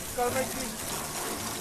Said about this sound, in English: is rinsing the cement off his tools.